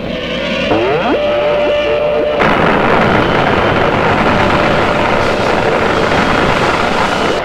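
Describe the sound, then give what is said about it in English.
Sci-fi spaceship weapon firing at the star cruiser Vesarius in a radio drama: a rapid string of descending electronic zaps over a hum, then a loud, sustained roaring rumble. “Increasing power emanations from ship. It's a weapon. It's locking on to the Vesarius. Firing.”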